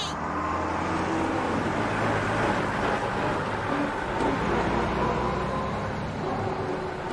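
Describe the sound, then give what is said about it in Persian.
A truck driving by in a video game: a steady, loud rumble of engine and road noise with a low hum underneath, continuous throughout without clear peaks. “آه یه کامیون.”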